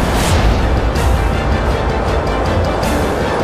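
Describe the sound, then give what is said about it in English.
A monorail train plummets off its tracks and crashes into the street in a cloud of dust and debris: a loud, dense rumbling roar throughout, with a few sharper bursts breaking through the low din. “the monorail, the emitter, and Ra's al Ghul and his fiendish plot to destroy Gotham City all plummeted into the street below and smashed into a cloud of dust and debris”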